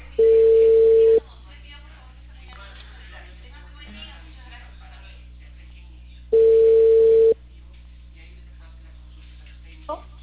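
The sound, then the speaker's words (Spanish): Telephone ringback tone on an outgoing call: two long, steady, mid-pitched tones about five seconds apart, with faint voices underneath. “Estoy llamando. No, pero aquí está timbrando.”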